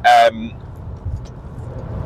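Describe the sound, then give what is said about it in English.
Low, steady road rumble inside a car while driving, with a brief loud burst right at the start before the quiet drone continues. “you will hear some, you know, noise and stuff like that because I'm driving”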